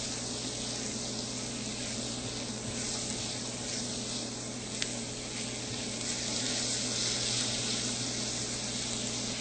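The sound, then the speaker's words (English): Onions, carrots and celery sauté in a pan, giving off a soft, steady sizzle that hisses on evenly without a break. “Okay, it's been about 5 minutes and the onions and carrots and celery are beginning to get soft. So we'll just continue to stir them around.”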